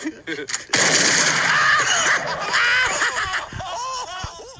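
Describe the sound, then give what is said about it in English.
A shotgun blast fired at a man's face as a stunt: a sudden loud burst after a brief quiet lead-in, followed by excited shouting and laughing voices. “I'm going to take a shotgun blast to the face. Okay, ready?”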